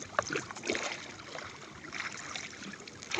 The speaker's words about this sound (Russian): Охотники столкнули на воду оставшиеся лодки и, сильно взмахивая веслами, понеслись к поселку.